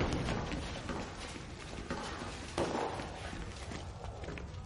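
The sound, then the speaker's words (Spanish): Footsteps of a group of prisoners climbing a staircase, a dense run of shuffling and thudding steps over constant background noise, with no clear count of individual treads. “Suben la escalera hasta la sala alargada.”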